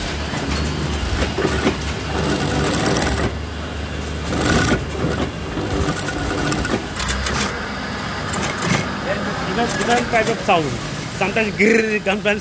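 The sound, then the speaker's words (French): A sewing machine in a clothing workshop stitches Velcro strips onto trousers for a spring-summer collection. It gives a steady, busy mechanical clatter and rattle, and people talk over it. “Mademoiselle derrière qui est en train de mettre les scratchs d'un pantalon.”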